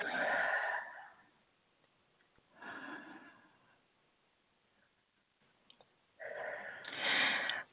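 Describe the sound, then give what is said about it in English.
Slow, deep breaths, taken as a few soft, airy, rushing surges separated by quiet pauses, with the last one the fullest and loudest. “Just take a nice deep breath.”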